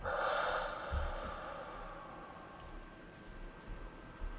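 A single deep breath, heard as a long airy hiss that swells early and then fades into near silence.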